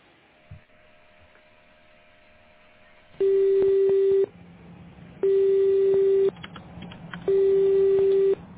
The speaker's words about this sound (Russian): Абонент еще не взял трубку.